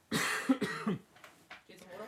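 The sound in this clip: Throat clearing and coughing from someone with a frog in their throat: two strong, rough bursts close together, then a few shorter, fainter throaty sounds.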